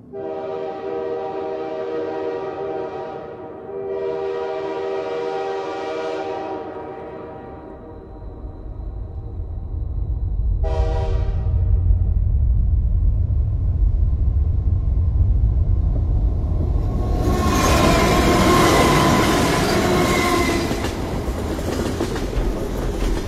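D301 high-speed bullet train bound for Fuzhou, near Wenzhou: three long, steady horn blasts, then a swelling rumble and clickety-clack of wheels on rails that grows into a loud, rushing roar.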